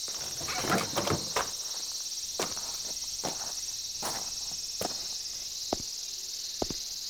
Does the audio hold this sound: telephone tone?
no